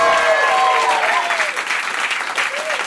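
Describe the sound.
A big live studio audience applauds at a radio station's live music session, a dense, even wash of clapping that holds throughout while a voice speaks over it.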